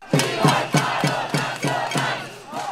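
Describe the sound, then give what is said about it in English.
Demonstrators in Bogotá chant against the right-wing government of President Iván Duque. The loud crowd voices come in regular, rhythmic bursts repeated through the whole stretch. “That's the sound of demonstrators who are targeting the right-wing government of President Iván Duque.”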